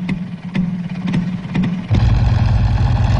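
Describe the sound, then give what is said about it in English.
Cycle car engines race in pairs on post-war roads in France, making a rough, mid-pitched drone broken by sharp crackling bursts. The engine noise grows heavier and louder partway through. “This summer, motor racing starts again in France with cycle cars. They start in pairs, and there is little room for overtaking.”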